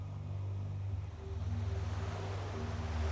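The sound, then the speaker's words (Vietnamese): Water churns and foams white around a rocking boat, heard as a steady, loud low rumble with a continuous rushing wash and a faint droning hum underneath, with no pauses. “mặt nước tung bọt trắng xóa, con thuyền lắc lư như ở giữa mắt bão.”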